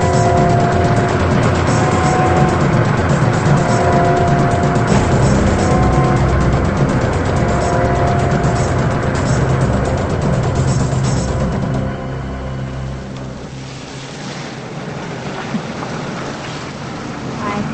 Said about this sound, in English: The man in the old blue car is on the prowl again. He drives down a dark, rain-soaked street at night.